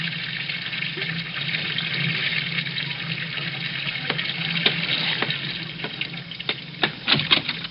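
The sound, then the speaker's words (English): Running water filling a bathtub in the morning: a steady hiss of flowing water with scattered small splashes and clicks, growing busier toward the end. “It's morning, and Rochester is running the bath.”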